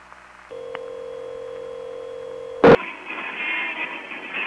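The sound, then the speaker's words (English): A steady electronic telephone line tone with a buzzy harmonic edge holds for about two seconds, then a sharp click cuts it off and gives way to a hissy, crackling line noise. “Okay, I dialed it, and it ought to be coming in any second now.”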